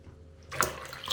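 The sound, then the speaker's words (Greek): Water poured into flour while making dough: a soft, splashy stream starts partway in after near silence and runs on, fairly faint. “Μετά βάζεις το αλευράκι. Αφού συμπληρώσεις και το νερό το υπόλοιπο.”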